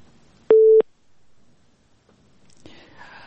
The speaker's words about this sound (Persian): تماس ما قطع شد.